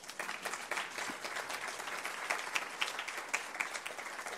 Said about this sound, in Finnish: Se olisi melkein aplodien paikka, tämänkaltainen yhteistyö ja tällä tavalla onnistettu. Aplodit tässä kohtaa sille.